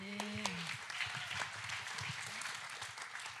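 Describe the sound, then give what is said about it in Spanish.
A church audience applauding, a steady and fairly faint wash of clapping that carries on through the whole clip. “Amén, un aplauso.”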